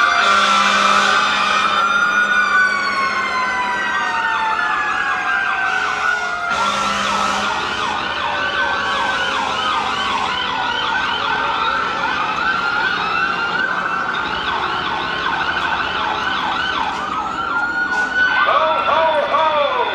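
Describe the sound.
Emergency vehicle siren wailing loudly and continuously, its tones sweeping up and down in repeated cycles throughout.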